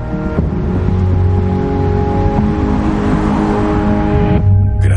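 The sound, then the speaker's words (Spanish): A car engine drones steadily as the vehicle travels along a motorway toward Göteborg. The low, smooth hum carries faint tonal whine overtones and stays at a constant level until a brief shift near the end. “Vuelve al coche con las placas anteriores. Circula hacia Göteborg.”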